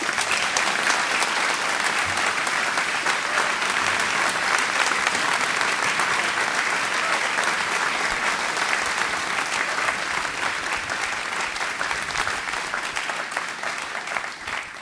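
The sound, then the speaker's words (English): An audience at a Commonwealth Club of California event applauds to welcome a speaker, with dense, even clapping that continues throughout and tapers slightly near the end. “It is my honor to ask you, along with the Commonwealth Club of California, to please welcome and give a hearty big hand for Ms. Meg Whitman.”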